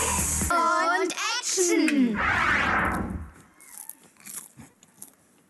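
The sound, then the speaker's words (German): Popcorn being eaten: children's voices come first, then a burst of loud crunching, followed by fainter scattered chewing crackles. “Jetzt hör mal auf, Popcorn zu essen.”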